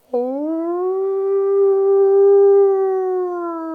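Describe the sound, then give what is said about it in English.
A person imitates a wolf howl, a single sustained tonal voice that swoops up at the onset, holds a steady, loud pitch for over three seconds and sags slightly at the end. “I can howl. I don't know how well the micro will pick it up”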